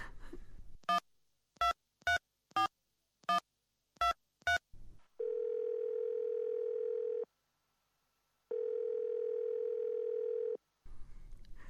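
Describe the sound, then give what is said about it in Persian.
Telephone tones while a call is placed: a quick series of short dialing beeps, then two long steady tones separated by a pause, loud and with no voices. “باش که به محمود زنگ بزنم.”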